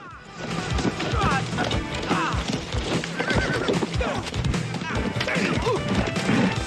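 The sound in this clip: Horses gallop hard in a chase, hooves pounding through dry, thorny branches and along a shallow stream. Dense, loud, continuous thuds and crashing, with a horse's whinny.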